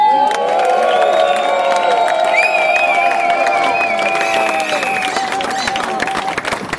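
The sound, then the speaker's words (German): Loud, dense cheering from a protest crowd at a rally for nursing care workers, mixed with clapping and shouts. A few shrill whistles cut through, and the roar stays steady for the whole stretch. “Und wer dafür ist, dass Pflege Schlüsselindustrie wird, der ist jetzt laut.”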